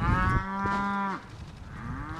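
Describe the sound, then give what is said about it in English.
Beefalo, a beef and buffalo cross, lowing on a 650-acre ranch in south central Missouri where females graze with calves: one long, loud, steady moo, then a softer second call that rises in pitch. “About 25 female beefalo, most with a calf nearby, are grazing on the 650-acre A&K Ranch in south central Missouri. They look a lot like regular cows, but their hair is a little longer and they look a touch bigger in the shoulders.”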